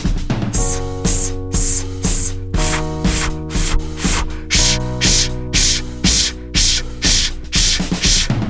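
A person hisses repeated 's', 'f' and 'sh' exhalations in a breathing exercise, many short rhythmic bursts of breathy noise set over a steady background of music.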